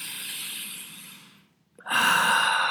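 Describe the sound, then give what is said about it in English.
A deep breath drawn in through the nose during a breathing exercise: two long, airy breath sounds with a short silent gap between them, the second louder and fuller. No talking. “So take a deep nose breathe, like”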